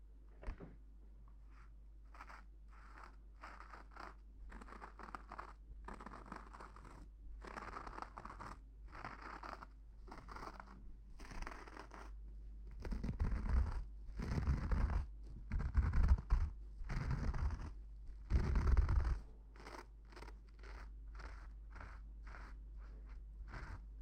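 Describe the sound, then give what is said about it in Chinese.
Razor shaving a face covered in shaving foam: many short, dry scratching strokes in an uneven rhythm. They grow louder and denser through the middle stretch, then ease back to softer scrapes. “给您的脸上已经涂满了泡沫了，现在就开始给您刮胡子了。”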